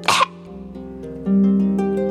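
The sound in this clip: A single short, loud cough bursts out at the start, voicing a character with a cough in a children's folk tale, followed by sustained steady tones that continue to the end.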